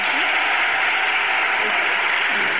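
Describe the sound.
Audience applause, a dense, even wash of clapping that stays loud and steady from start to finish.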